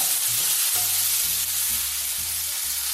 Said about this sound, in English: While the tomatoes continue to blister, I'm going to give them one more stir.